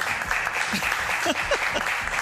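A small live radio audience in a cramped space at the Fundació Catalunya La Pedrera applauds in steady, moderate clapping for about two seconds.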